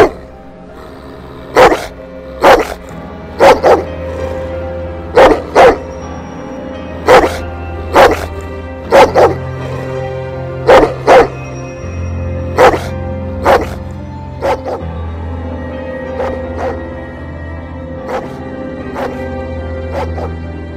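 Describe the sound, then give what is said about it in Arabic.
A dog barks at the door of a house, letting out many sharp, loud barks in irregular bursts and pairs over a low, sustained tonal drone that continues underneath throughout. “نفس الكلب وقف لي على باب البيت معرفش ده بيطلع منين ولا بيظهر امتى. رجعت لورا وهو واقف على باب البيت بيزمجر”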